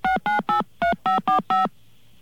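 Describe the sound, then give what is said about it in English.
Touch-tone dialing of a phone number to a telephone company's account line: seven short, clear electronic beeps of shifting pitch, three in quick succession, a brief pause, then four more, followed by quiet. “I think I've dialed this number quite a bit in the last couple of days.”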